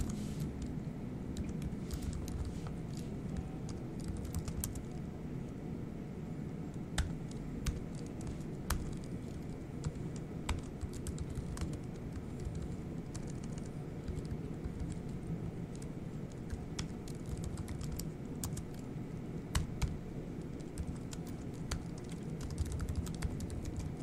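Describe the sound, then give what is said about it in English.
Faint typing on a computer keyboard as commands are entered: many light, irregular key clicks, sparse and uneven in pace, over a steady low hiss, with no voices. “Let's just type these in.”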